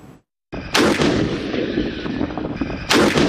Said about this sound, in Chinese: 大漠戈壁，新疆军区某团正组织坦克分队展开实弹射击考核